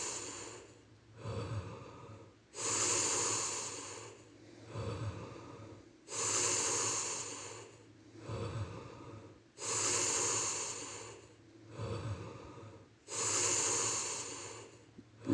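Slow, steady breathing in and out during a guided breathing exercise. Softer and louder breathy hisses alternate evenly, about four full cycles, with nothing else audible.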